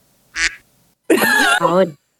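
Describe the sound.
Duck quacking: a short nasal burst followed by longer, loud, wavering quacks in quick succession, with little else heard.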